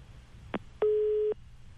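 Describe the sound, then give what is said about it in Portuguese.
A telephone busy signal sounds after a dropped call during a phone interview: a short blip, then a steady mid-pitched tone held for about half a second, then the next tone begins. No voices are heard. “A gente acabou caindo aqui a ligação do Tenório, mas nós já estamos tentando reconectar aqui para ele continuar explicando para a gente como é que é essa situação”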